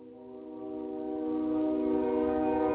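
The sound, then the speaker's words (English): A slow train honking its horn at a crossing where the gate arms are malfunctioning: one sustained, steady, chord-like blast that grows gradually louder, with no talk. “It's a very slow train. And apparently the arms on the tracks aren't working right, so I guess he thought he'd honk his horn incessantly,”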